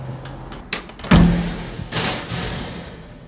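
A door thuds open after its latch is released by pulling a string, with a few light clicks first, then a heavy knock and a rushing rattle.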